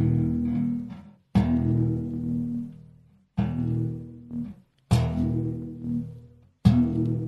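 Plucked string of an ugubu, a musical bow with a calabash resonator, pinched by hand: several low, buzzy twanging notes, each ringing on and decaying for a second or more before the next pluck.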